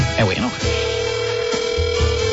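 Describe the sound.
Telephone ringing during a call, a steady electronic ring tone that holds on after a short burst of a voice and continues to the end.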